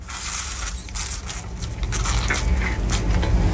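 The last juice being squeezed from a carton into a glass: a continuous, crackling squish with wet, liquid texture that stays steady and grows a little louder in the second half.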